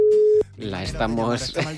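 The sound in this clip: A single steady electronic telephone tone sounds while a call is being placed, loud and unbroken for under half a second before it cuts off and a voice takes over.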